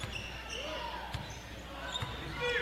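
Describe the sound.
Basketball dribbled during a game, a couple of sharp bounces standing out over a steady background hum.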